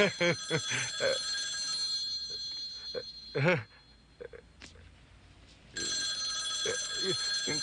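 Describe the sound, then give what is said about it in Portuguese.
A telephone bell rings in a dubbed film scene. Bright, shrill ringing sounds at the start under people talking, stops during a quieter stretch, then resumes near the end. “É melhor alguém atender o telefone. Não deve ser para mim.”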